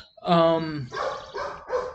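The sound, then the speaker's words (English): A neighbour's dog barks: one drawn-out, tonal bark or yelp, followed by a few shorter, rougher barks in quick succession. “Good golly, what's going on with the neighbor's dog? Our dogs are looking at her.”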